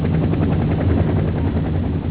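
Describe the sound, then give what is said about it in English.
A military helicopter flying supply runs to a besieged Marine base, a loud steady rotor thump with a rapid, even pulsing beat over a deep engine drone that holds constant throughout. “Helicopters flew non-stop to keep the Marines alive and fighting.”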